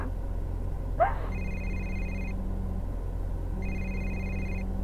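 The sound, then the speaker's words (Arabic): An incoming call makes a telephone ring in two separate bursts, each about a second long, with a pause between them. The ring is faint and trilling over a steady low hum, and no one speaks. “إسلام اتصل، إسلام اتصل. هذا إسلام قاعد يتصل”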